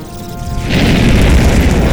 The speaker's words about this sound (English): Drive away this scurrilous beast with your fire. Yeah, yeah. And now I'm a human Zippo lighter.